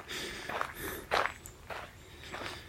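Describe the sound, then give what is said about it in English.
Footsteps crunch along a path in the woods, a steady series of soft, scuffing steps at an unhurried walking pace with no voices. “Where I'm walking in the woods right now”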